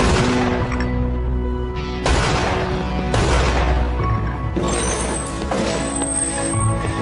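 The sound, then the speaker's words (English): Gunshots in a TV crime drama scene: a few loud, sharp bangs spaced a second or more apart, each cutting through a steady tonal background. “I just shot Andrew Veneman. He's dead.”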